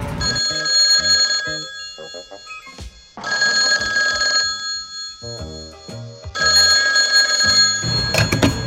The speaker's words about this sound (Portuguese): Preciso ligar lá para casa, ver com o meu mordomo se está tudo bem.